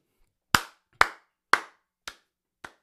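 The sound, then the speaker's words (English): Five slow, evenly spaced hand claps, sharp and crisp on their own, with the last two noticeably softer. “slow clap. Slow motherfucking clap.”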